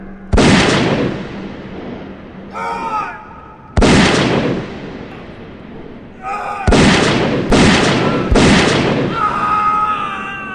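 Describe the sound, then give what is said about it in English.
Four loud, booming gunshots ring out a few seconds apart, each with a long decaying tail. Shouting voices come in between the blasts. “He's shooting Phipps, Simon!”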